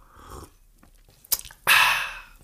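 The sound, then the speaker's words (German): Someone takes a sip of a drink: a sharp brief click, then a longer airy slurping rush that tails off. No talking accompanies it. “Ich trinke nochmal gerade einen Schluck.”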